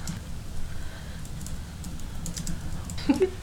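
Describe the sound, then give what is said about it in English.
Rapid, light clicks of typing on a computer keyboard, as someone looks up the alcohol proof of a liquor online. The keystrokes are steady and fairly faint over a low background hum. “I typed in 100 poop instead of 100 proof.”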